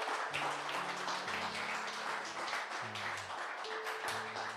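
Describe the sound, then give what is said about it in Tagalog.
An audience claps at a church service in a dense, steady burst of clapping that lasts throughout, with held musical tones beneath it. “Why don't we give the Lord the loudest clap offering that we can give him?”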